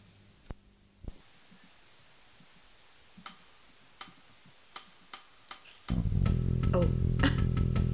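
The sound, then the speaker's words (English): Cassette tape playing noises: a sparse series of sharp mechanical clicks in near quiet, then a loud continuous hiss and hum of playback that starts abruptly and fills the remainder. “Tape cassette noises.”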